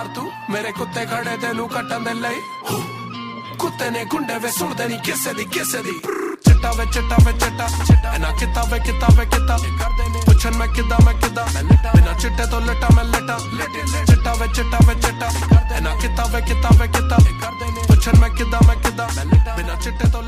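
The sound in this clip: A Punjabi song opens with a quieter melodic passage, then a heavy, driving bass beat and dense instrumentation kick in about a third of the way through and continue loudly to the end.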